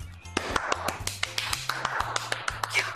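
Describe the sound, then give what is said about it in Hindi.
A few people clap with sharp, crisp claps in an uneven rhythm, several each second, over a low steady hum. “नहीं नहीं, तालियां नहीं बजानी है दोस्त। सलाम सलाम क्या तुमने इनसे? हाँ तालियां बजा रहे हैं।”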